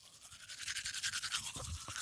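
Teeth being brushed with a toothbrush whose bristles are still firm: a steady rhythm of many quick scrubbing strokes, a bright, bristly rasp repeating back and forth without pause, fairly faint and with no voices.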